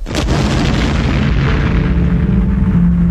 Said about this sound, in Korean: 수류탄이야! 조심해!